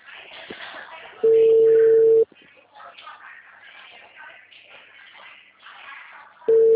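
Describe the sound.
A steady telephone line tone sounds after a dropped call. Two long, even beeps of about a second each are separated by a long gap, with faint voices murmuring between them.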